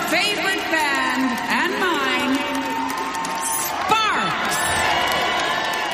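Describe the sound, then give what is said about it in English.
An audience cheers and whoops in a big welcome for a performer: sustained, loud crowd noise with shouting voices rising above it throughout. “Please put your hands together and give a big lunar welcome to your...”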